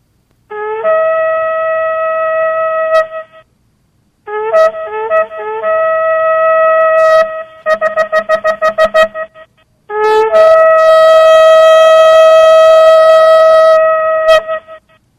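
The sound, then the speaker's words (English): A shofar, a ram's horn trumpet, sounds loud, bright, buzzing blasts: a long steady note, a blast with broken attacks, a run of rapid short staccato blasts, then a final long sustained blast. “Later in Jewish history, they began to use a shofar. I have an example of that as well. A little bit different sound when you use an animal horn.”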